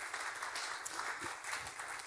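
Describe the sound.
Audience applause after a group exercise: a faint, steady wash of many hands clapping together, continuous from start to end with no voices.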